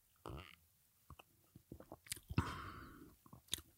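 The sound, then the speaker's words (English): Close-in sipping of bitter tonic water with quinine: soft wet mouth clicks and lip smacks, then a louder slurping sip with a drawn airy tail, followed by a few more faint clicks and a swallow. “I'm about to do a little like close-in slurp, and let's then I'm gonna do, like swallow maybe with my lips a little bit.”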